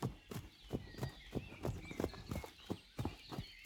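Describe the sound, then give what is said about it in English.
A horse trots, its hooves clip-clopping in a steady, even rhythm of many sharp knocks with low thuds beneath. “The father trotted back to where Dapple Gray and the others stood.”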